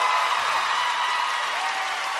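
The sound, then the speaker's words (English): Faint, steady applause from a concert audience after a song performed with Laura Pausini on stage. The sound is an even hiss of clapping without distinct beats, fairly quiet throughout. “Round of applause! Yeah!”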